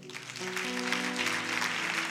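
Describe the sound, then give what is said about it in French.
An audience applauds during a church service, a faint, steady wash of clapping over sustained keyboard chords throughout. “Madame, je veux qu'on acclame Dieu pour ta vie.”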